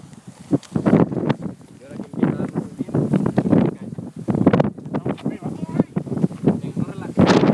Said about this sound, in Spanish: Viento.